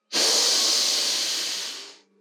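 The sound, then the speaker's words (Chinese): A single slow, steady breath out during a guided children's meditation: a long, soft, airy hiss that holds evenly for about two seconds and then tapers away. “再慢慢的吐气，深深的吸气，”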